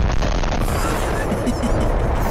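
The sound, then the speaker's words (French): A SpaceX rocket exploding after a soft landing in Texas, once flames had appeared at its base: a loud, dense, sustained rumbling roar with a heavy low end and no separate bangs. “ça explose. Bon, le bruit est vrai. C'est le vrai bruit, là.”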